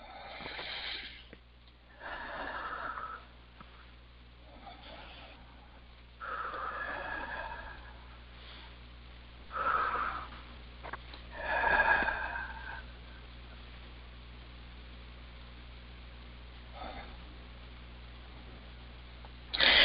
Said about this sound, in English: 3 nice deep breaths.